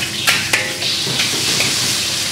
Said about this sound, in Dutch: De twee pannen tegelijk. Het lijkt wel of je drums aan het spelen bent.